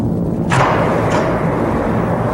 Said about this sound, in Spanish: Lanzamos el proyectil. ¡A toda velocidad! ¡Torpedo en el agua!